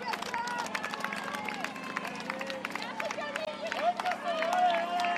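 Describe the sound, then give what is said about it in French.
French spectators cheer and clap for triathletes at a race, a steady wash of crowd noise and clapping running beneath a voice talking over it. “Les encouragements du public français.”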